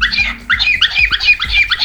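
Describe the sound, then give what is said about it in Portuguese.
A cockatiel squawks in a quick string of shrill, high chirping calls, loud and alone, repeating in uneven bursts without pause. “é o calopsita da dona Tereza, hein, dona Tereza? Ô, bichinho inteligente”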